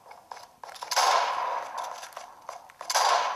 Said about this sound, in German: Headshot! Headshot, Headshot.